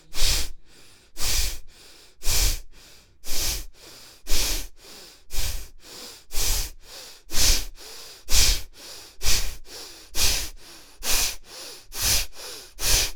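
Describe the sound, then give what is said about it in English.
Deep human breathing in a steady, repeated cycle, each breath a loud airy rush followed by a long trailing exhalation, many breaths in a regular rhythm with no talking. “Continue breathing. Yes. Concentrate on the exhalation.”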